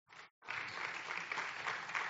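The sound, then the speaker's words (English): A church audience applauds in praise of Jesus during a sermon: a short burst of clapping, a brief pause, then sustained, even applause from many people that carries on to the end. “I think Jesus deserves a round of applause.”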